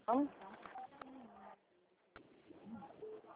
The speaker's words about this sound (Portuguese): Tá apertando alguma tecla do seu celular que tá aparecendo aqui pra mim?